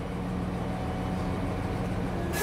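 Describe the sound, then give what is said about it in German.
A locomotive reverses into the second switch of a South Tyrolean turning layout, heard as a steady, low engine drone that holds an even level throughout. “Die Lok fährt nun rückwärts in die zweite Weiche.”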